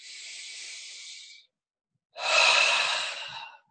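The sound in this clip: Deep, slow breaths during a relaxation breathwork exercise: a long, soft airy breath, a short silent pause, then a louder, fuller breath that slowly fades. No voices.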